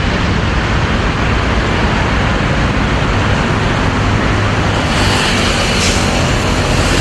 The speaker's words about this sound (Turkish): sokağa özel halk otobüsü girdi